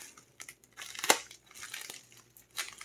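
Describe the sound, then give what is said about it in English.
Crinkling, tearing rasps as the body of a resin object is ripped open by hand: a few scattered bursts, one sharp loud tear near the middle, then softer crackling with no voices. “Let's open the body and check this bad boy out. As you can see, I'm just tearing into it like it's a Christmas gift on Christmas morning.”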